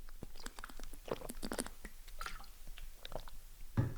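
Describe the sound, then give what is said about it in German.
Someone takes a drink, making quiet, wet gulping and swallowing mouth sounds in a series of soft clicks and squishes over four seconds. “Erstmal muss ich was trinken.”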